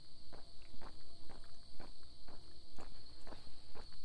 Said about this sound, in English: So, may wonder why I'm walking to start. That is because I am doing my prescribed 11 mile